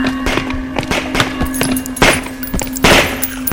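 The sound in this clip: Gunfire shoots down infected attackers: many sharp shots crack in irregular rapid bursts, dense and loud throughout.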